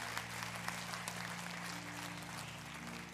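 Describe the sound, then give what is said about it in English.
Applause from a church audience welcoming new members during a morning service: dense, continuous clapping that holds steady throughout. “Hey, can we just put our hands together and welcome some people into God's family this morning?”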